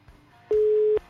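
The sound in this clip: A telephone busy-signal beep sounds on an unanswered call: a single steady mid-pitched tone lasting about half a second, with soft clicks just before and after.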